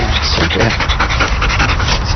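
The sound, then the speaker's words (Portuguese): Rapid, steady panting from a female Belgian Malinois police working dog, loud and breathy, running without a break through the whole stretch. “Cobra Kai é uma cadela belga malinois.”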